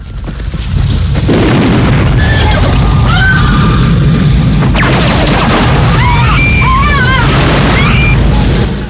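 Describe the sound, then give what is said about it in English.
A house explodes in a Rambo film battle scene. A heavy blast hits just under a second in, then rolls into a loud, sustained rumbling roar that fills the rest of the scene without easing. “Rambo leaps a low stone wall on horseback, then dismounts and takes cover by a house, which explodes.”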